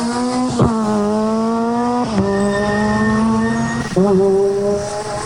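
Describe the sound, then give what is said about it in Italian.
A 600 rally car's engine roars as it accelerates away from the start area through four gears. A loud, buzzing engine note is broken by three quick gear changes, each one briefly dropping the pitch before it climbs again. “Avete sentito questa 600 che in poche centinaia di metri ha messo quattro marce, la dice lunga sulla prestazione che può scaturire.”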